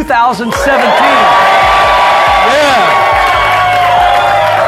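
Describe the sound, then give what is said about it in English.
Crowd cheering and whooping at a live event in 2017, a loud, dense wash of many voices with high whoops and shouts, sustained throughout. “We got a great crowd. Great crowd, as you can hear and see.”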